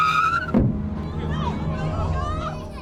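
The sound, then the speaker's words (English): A car strikes a child at 40 miles an hour: a high squealing tone, like tyres skidding, breaks off into one sudden, heavy impact thud, followed by a low, rough rumble that trails off. “This is the sound of a car hitting a child at 40 miles an hour.”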